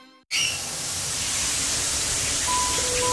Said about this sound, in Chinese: 洗澡之前我们习惯放掉冷水30秒，一个直径160毫米的花洒